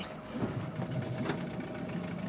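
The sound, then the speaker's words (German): An almost 40-year-old 8 hp boat engine sets off slowly, giving a steady, dense, rumbling drone with an even mechanical chatter that holds constant throughout, with no voices. “Mit 8 PS geht es langsam los. Fast 40 Jahre alt sind die Motoren.”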